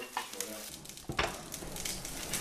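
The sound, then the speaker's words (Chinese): Sizzling, bubbling hiss as millet is poured into boiling water in an iron wok over a wood fire, with a sudden louder surge partway through before the churning hiss settles into a steady texture. “水开后，将小米下锅，”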